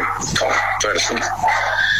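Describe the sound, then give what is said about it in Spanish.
Dogs bark, yip and whimper in short bursts over a steady low hum, with voices present in the background. “No, pero se escuchan los perros.”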